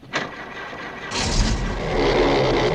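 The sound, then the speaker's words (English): Car engine starting with a key while in neutral: a short sharp click, then about a second of low cranking before the engine catches and settles into loud, steady running that slowly builds. “Look, when the motor starts, you release the key.”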